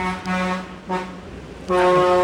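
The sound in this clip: A truck blares its horn in three loud, steady, tonal blasts, the last one the longest, with short gaps between them.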